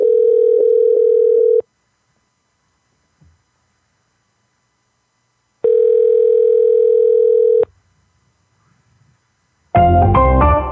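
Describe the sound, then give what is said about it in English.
A phone call rings out: two long, steady ringing tones about two seconds each, separated by a silent gap, then a brighter burst of other sound at the end. “We should try to call Stevie J again, too.”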